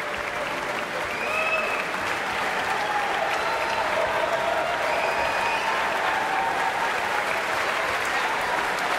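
Concert audience applauding after a performance of Bolero, a sustained, dense wash of clapping that stays loud and even throughout.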